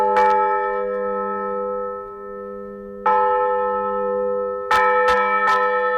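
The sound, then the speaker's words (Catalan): A village church bell rings out in a small hamlet of about 150 inhabitants. A few loud strikes, with a cluster of quick strikes near the end, each leaving a long, sustained metallic hum that fades between blows. “Feia 80 anys que aquesta campana va sonar per última vegada en aquest poblet de 150 habitants de la Segarra”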